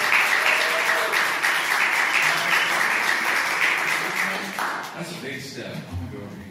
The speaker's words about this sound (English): Do me a favor, put your hands together and welcome him up to the stage.